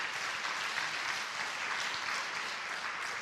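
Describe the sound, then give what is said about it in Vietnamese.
Steady audience applause at a talk fills the whole stretch: dense, even clapping with no voices over it. “Không đơn giản, vỗ tay khích lệ một chút.”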